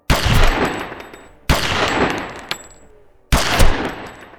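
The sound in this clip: Gunshots: three loud, sharp blasts spaced apart, each followed by a long, slowly fading tail, with a fainter crack between the second and third.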